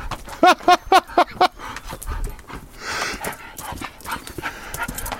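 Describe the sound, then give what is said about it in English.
A dog that wants to go inside on a cold day outdoors gives five quick, high yelping barks in a row, then pants and shuffles quietly afterward. “Let's just see what this dog's talking about.”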